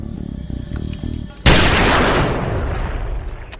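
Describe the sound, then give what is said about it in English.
A single loud gunshot from a man shooting himself in the mouth bursts out sharply after a moment of low, muffled sound, then trails off in a long, rumbling decay. “And he shoots himself in the mouth.”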